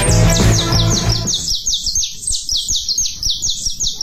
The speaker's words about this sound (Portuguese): Ele estava compondo uma música pra canarinha da terra lá no ninho. Como é que era a música? Canta pra nós aí.